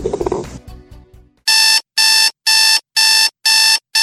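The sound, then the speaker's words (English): An alarm clock rings in six loud, evenly spaced bursts of bright, harsh electronic tone, each lasting about a third of a second with short silent gaps between them, after a brief muddled burst of other sound. “You know what that sound is? That's your wake-up call.”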